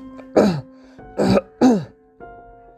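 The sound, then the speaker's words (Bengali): A man coughing, with three short, harsh, raspy bursts like throat clearing, the last two close together, loud against an otherwise quiet background. “কাশতে কাশতে উঠে বসলো লোকটা, উঠে বসেও কাশতে লাগলো।”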